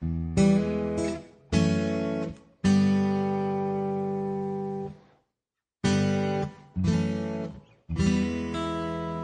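Acoustic guitar strums basic chords, E major, F sharp minor 7 and open G with minor 7 voicings, in six ringing chord hits: three, a brief silence, then three more, each sustaining before the next.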